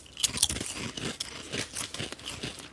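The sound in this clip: Someone bites and chews a barbecue-flavored potato chip that tastes off. Many crisp, irregular crunches follow one another, with a few louder snaps early on, and nobody speaks.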